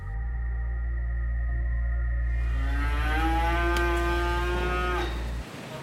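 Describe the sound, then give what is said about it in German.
A dairy cow in a barn at Triesdorf gives one long, loud, drawn-out moo. A steady low mechanical hum from a feeding robot moving through the stall runs under it and stops near the end. “Zurück bei den Milchkühen in Triesdorf. Gerade fährt ein Futterroboter durch den Stall und legt den Tieren neues Futter vor.”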